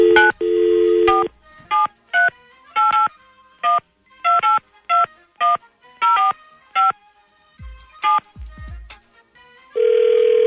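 Telephone keypad dialing tones during a dialing race: a long tone opens, then many short, loud touch-tone beeps follow in an uneven rhythm, ending with another sustained tone, with no talking.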